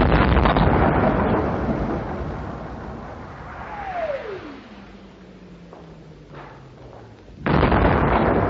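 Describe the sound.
Wartime artillery shells German positions across the wide, bridgeless Maas river: a heavy rumbling boom opens, a long whistle falls steadily in pitch, and a second loud blast erupts at the end.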